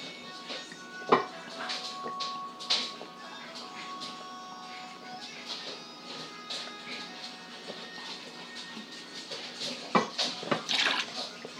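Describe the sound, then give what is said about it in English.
Water runs steadily into a kitchen sink piled with dirty dishes during washing up, a continuous hiss broken by a few sharp clinks and knocks of crockery. “Here comes the sink all piled up with washing up every time I look at it, even when I've emptied it.”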